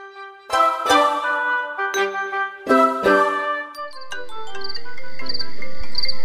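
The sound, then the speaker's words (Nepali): WhatsApp incoming call ringtone on a phone: a few bright harmonic chimes come first, then a repeating high tinkling pattern starts and keeps looping to the end over a slowly rising hiss. “वाट्सएपमा त मुस्कानले पो phone गरिन् त, उठाउनु पर्यो।”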